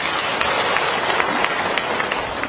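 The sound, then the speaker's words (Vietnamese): A listening audience claps during a Buddhist sermon on the Heart Sutra. The applause is a dense, even roar of many hands that holds steady throughout. “Hiểu không mà vỗ tay?”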